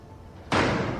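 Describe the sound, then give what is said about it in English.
A door is shut and slams hard: after a quiet moment comes one loud, heavy bang that rings out briefly and fades. “Please, come in. Allow me to shut the door.”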